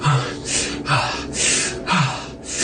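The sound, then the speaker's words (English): Heavy, labored breathing with sharp gasps, from someone lying on his back in a warm, fetid cavern: several rasping inhale-and-exhale cycles in a steady rhythm, loud and alone, some inhales catching in the throat. “hands kind of lifting him up just a little bit as he breathes heavily.”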